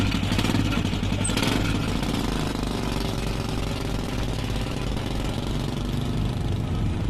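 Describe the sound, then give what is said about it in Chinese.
A three-wheeled motorcycle carries a family to a cotton field at harvest time, its engine giving a loud, steady, rattling drone throughout with no talk. “一家人一大早就坐着三轮摩托下地”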